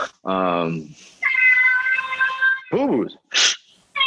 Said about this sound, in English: my cat. She doesn't ask for food. She demands it.